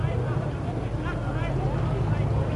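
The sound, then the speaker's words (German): A tank turns and drives back along a city street near a ruined hotel during street unrest. Its engine gives a steady, low, rumbling drone under a man talking. “Der Panzer hat jetzt herumgedreht und hat seine Rohre in die entgegengesetzte Richtung gerichtet. Jetzt wendet er noch einmal”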